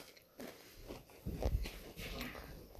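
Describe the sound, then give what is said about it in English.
Crunchy chewing of Sugar Crisp cereal: a few soft, crackling bites and grinding chews, faint and close, with no voices. “That's some good sugar crisp.”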